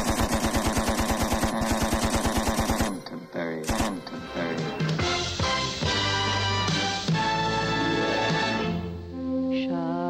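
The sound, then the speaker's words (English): Gunfire from a firing squad sound effect: a rapid, evenly spaced burst of many loud shots for about three seconds, then the shots stop and other sustained tones follow. “Stand in a line over there and smoke your last cigarette, because here comes the Canterbury Firing Squad.”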